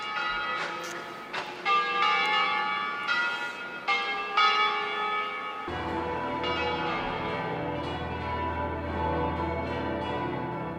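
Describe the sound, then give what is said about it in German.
Church bells from Ticino or northern Italy pealing slowly, with bright ringing strikes at an unhurried pace. Midway, a deeper bell joins and the sound swells into a fuller, sustained peal. “Also das Erste ist mit Sicherheit ein Geläut entweder aus dem Tessin oder aus dem norditalienischen Raum, im Sinne, dass die Glocke da viel langsamer geläutet werden.”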